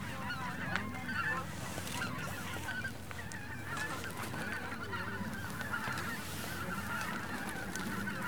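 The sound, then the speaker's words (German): A large flock of greater white-fronted geese calling in flight over the Seewinkel wetlands in autumn or winter, with many overlapping honks forming a dense, continuous chorus at a steady level and no talk. “Das sind auf jeden Fall zum allergrößten Teil Blässgänse, ja?”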